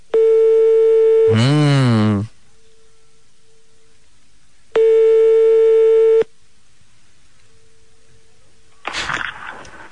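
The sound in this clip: Telephone line tones while calling a small hotel: two steady, loud tone bursts, the first followed by a brief warbling glide, with faint tones between them and a short noisy burst at the end.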